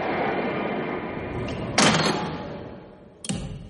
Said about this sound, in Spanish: saca una barra metálica de la mochila y la lanza contra la puerta.